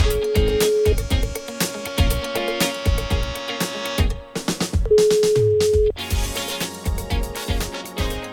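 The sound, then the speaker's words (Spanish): An outgoing phone call produces a ringback tone: two steady one-second beeps about four seconds apart, sounding over loud rhythmic music with percussion. “Bueno, estamos llamando a Carlos. Estamos llamando a Carlos.”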